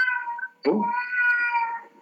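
Two pet cats fighting: a long, wavering yowl, then a sudden harsh hissing burst, followed by another drawn-out high caterwaul that fades away.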